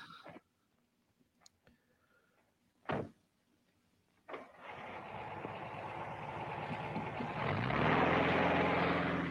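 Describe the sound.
A Volkswagen car engine in a 1964 snowplow commercial. A few faint clicks and a single thump come first, then a steady engine drone takes over and grows louder, with a humming tonal whine toward the end.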